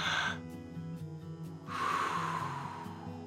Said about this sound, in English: Let's draw another breath.